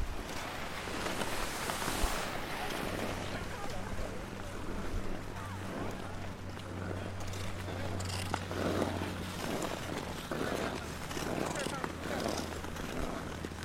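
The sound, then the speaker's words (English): Ice skates scraping and rumbling over frozen canal ice at a rapid pace, with wind: a continuous rough, hissing scrape with a low steady rumble underneath and faint repeated stroke-like pulses. “Can you feel the wind on your face? Can you feel the rumble of the ice under your skate?”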